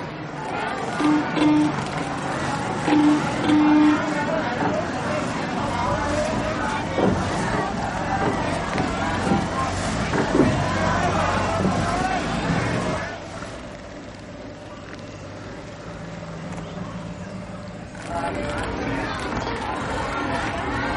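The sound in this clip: A crowd boards a ferry in a 1992 colonial-era drama film. Voices murmur and chatter steadily with bustling movement over a low rumble, then the crowd noise drops off noticeably after about thirteen seconds.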